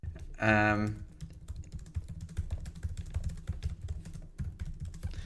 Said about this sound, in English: I'm going to type it to you because I feel like it is a great one.